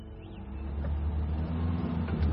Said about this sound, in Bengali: Zip অন্ধকার চিরে এগিয়ে যাচ্ছিল, কিন্তু যতটা জোরে যাওয়ার কথা ততটা গতি উঠছিল না। রাস্তা এবড়ো খেবড়ো, বড় বড় গর্ত বাঁচিয়ে যেতে হচ্ছিল ড্রাইভারকে।